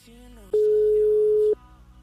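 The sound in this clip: A telephone tone heard while a call is dialled out for a radio karaoke game: one steady, loud, pure beep lasting about a second, set against fainter background sound.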